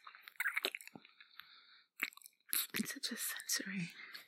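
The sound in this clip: Someone chews and bites into a small treat, making crisp crunches and wet mouth sounds in irregular bursts, with a short pause near the middle before the crunching picks up again.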